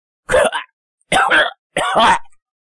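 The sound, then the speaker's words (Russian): A hoarse, gurgling laugh or cough of a dying creature in a cave, imitated by a narrator's voice: three rasping, throaty bursts, each under a second, separated by brief silences. “в пещере раздался вдруг хриплый, булькающий, то ли смех, то ли кашель умирающего Селадана”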